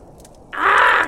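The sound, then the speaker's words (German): A raven gives a single loud, harsh caw outside, rising sharply from near silence, holding for about half a second and then breaking off. “Was ist das wieder für ein Gekrächze da draußen? Nie hat man seine Ruhe.”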